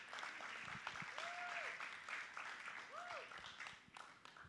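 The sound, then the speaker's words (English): A church audience applauds to welcome a speaker to the pulpit at a morning service, with dense, steady clapping that continues through the whole stretch at an even level. “So can we just welcome her to the pulpit this morning?”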